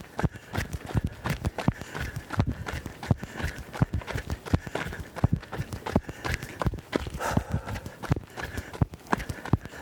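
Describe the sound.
Running footsteps on a woodland trail: many quick, evenly spaced footfalls in a steady, brisk rhythm that continues throughout.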